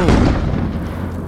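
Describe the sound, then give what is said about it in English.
A landmine explosion going off right underfoot in Iraq, heard as one loud, dense blast whose heavy low rumble fills the whole moment without letting up. “Landmines creeped me out, man. And guess what got me? That. Right under my feet.”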